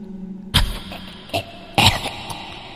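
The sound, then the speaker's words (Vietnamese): An old woman coughs in a few harsh, raspy bursts separated by short pauses, with quieter throaty sounds in between. No words are spoken. “Chỉ còn đâu đó tiếng của bà cụ cùng với câu gọi và tiếng ho khủng khục”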